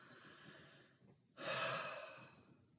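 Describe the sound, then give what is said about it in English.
One deep breath taken: a quiet pause, then a single long, airy inhalation that swells and slowly fades, soft and alone. “That's a nice one to take a breath on.”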